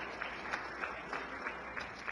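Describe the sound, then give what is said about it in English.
Faint applause for visiting guests in a state Senate chamber in Jefferson City, a soft, steady patter of many hands with no speech over it. “Would the guests of the Senator from the 14th please stand and be recognized? Let's give them a round of applause.”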